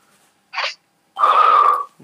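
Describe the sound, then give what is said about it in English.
Heavy breathing in and out through the mouth: a short, sharp breath, then a longer, loud, hissing breath with a wheezy edge. “Breathe in and out 5 times heavily with your mouth.”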